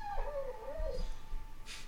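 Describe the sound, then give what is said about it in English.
A dog in the room whimpers: one thin, wavering whine that dips and rises in pitch, faint over a low background hum. “So there is doggo in room”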